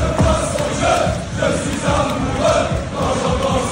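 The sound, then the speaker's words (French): Brest football supporters chanting in unison, a loud, sustained crowd chant with steady sung vocal tones running through the whole stretch. “papa nous a toujours dit que ce chant, le chant que vous avez fait, que vous entendez, il l'emporterait avec lui.”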